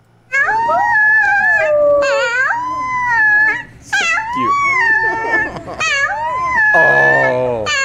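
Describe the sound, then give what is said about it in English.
A baby wolf howls in a string of drawn-out, wavering, high-pitched cries that rise and fall in pitch, with brief breaks between them and no talking. “who needs to hear a baby wolf howl? I gotta have a bit. Like, after all this depressing bullshit I'm covering, I just have to hear a baby wolf howl.”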